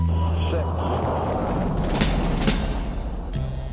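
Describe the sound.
Deep, dense roar of an Apollo moon rocket's engines at ignition and launch, a loud low rumble throughout with crackling bursts midway, with a voice speaking over it.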